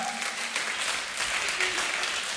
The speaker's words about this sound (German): Komm mal, einen Applaus für euren Döner.